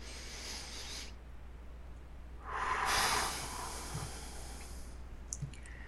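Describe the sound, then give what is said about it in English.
A single deep breath drawn during a stress-relief tapping exercise, a soft breathy swell rising and fading in the middle of an otherwise quiet stretch, with faint clicks afterward. “And take a deep breath.”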